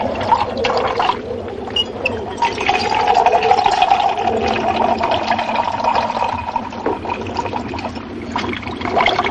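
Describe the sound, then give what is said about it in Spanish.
Water pours from a wheel-driven watering can into a tin and then into a metal cup inside a cabin, a steady splashing trickle that runs on without a break. “En el interior de la cabaña, Berta mueve una rueda que hace que una regadera vierta agua en una lata y de esta caiga en una taza de metal.”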